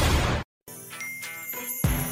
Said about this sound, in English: Was that little ding? Was that little text ding part of the song?